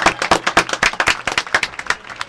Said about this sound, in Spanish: Fuerte aplauso para ellos primero.